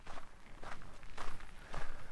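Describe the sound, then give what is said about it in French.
A few footsteps walk on a winding forest path, soft and fairly faint, in a slow, even rhythm. “je reprends la marche sur le chemin qui serpente dans la forêt”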